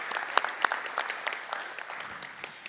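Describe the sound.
Audience applause welcoming a speaker, a short burst of dense, crackling clapping that gradually thins out, with a faint voice over it.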